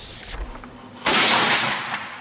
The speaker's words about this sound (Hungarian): Ütközetre készül a sereg, ágyúdörgéssel hívják toborzóra a legényeket.